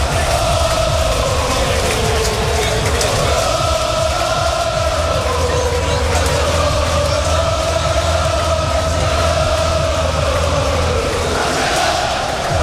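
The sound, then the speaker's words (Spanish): A crowd of 15,000 football fans fills the Castalia stadium minutes before kickoff, a dense, unbroken roar with collective chanting that rises and falls in a sung melody. “El ambiente es tremendo, banderas albinegras al viento, han sacado un tifo, está lleno a reventar, todas las entradas vendidas, 15.000 espectadores en el Skyfy Castalia, que vamos a escucharlo porque suena así a pocos minutos de que empiece el partido.”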